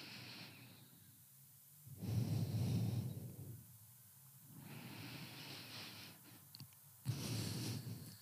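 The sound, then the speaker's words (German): Breathing through a single nostril, in and out twice: four soft, airy nasal breaths spaced a second or so apart, the second and fourth somewhat stronger. “Jetzt lässt das Nasenloch los und schließt einmal das andere. und machst das auch nochmal. Zweimal einatmen und ausatmen.”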